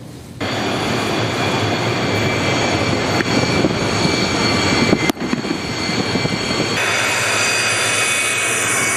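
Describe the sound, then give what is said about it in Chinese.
A carrier-based fighter jet taking off on full afterburner during land-based carrier-landing training: a loud, dense jet roar that starts abruptly and stays powerful and steady throughout, with no voices. “飞行学员推满油门拉杆，战机加力升空。”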